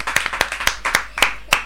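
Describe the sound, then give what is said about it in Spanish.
A small group clapping after being invited to applaud at a session for older adults. The sharp claps come in an uneven sequence and are fairly loud, with no talk over them. “¡Aplausos!”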